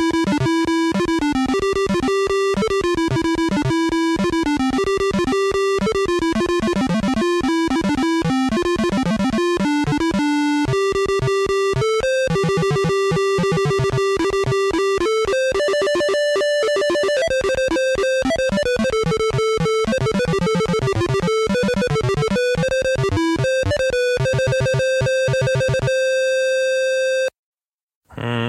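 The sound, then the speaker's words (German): Bleeping square-wave music from the PC version of Bard's Tale 2, played through the PC speaker beeper with a melody and a bass line. Fast, jaunty notes run steadily for about half a minute, then stop abruptly. “Das gelingt dem Bard's Tale 2 ganz nett und deswegen ist es ein wirklich ganz hübsches, düdeliges Stück. Und das klingt so.”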